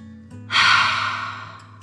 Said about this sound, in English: We better let them go. Ready? Breathe in and out.